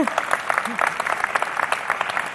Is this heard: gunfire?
no